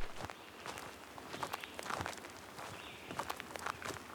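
Footsteps of people on a long walk, a steady run of many soft, even treads under a faint, continuous background hiss, with no voices.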